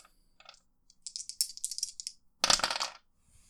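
Two dice are rolled for a tabletop role-playing game. A few light clicks come first, then a quick rattling tumble, and a final brighter clatter as the dice land, all fairly quiet.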